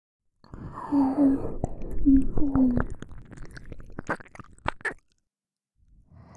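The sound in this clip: Close-up ASMR eating sounds: soft whispering gives way to a run of wet mouth clicks, smacks and chewing noises, then the sound stops into silence.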